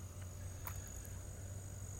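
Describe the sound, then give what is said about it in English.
Crickets trill outdoors on an early autumn morning, a faint, steady high-pitched drone that runs unbroken, with a brief soft chirp near the middle and no voices. “There's, I guess they're crickets. And it's not loud, but it's loud enough.”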